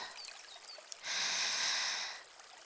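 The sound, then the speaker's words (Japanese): A slow, deep breath from someone with chest pain: a single long, airy rush of breath lasting about a second, soft and steady, then fading back into faint background noise. “痛むのですか？ゆっくり息を吸ってください。”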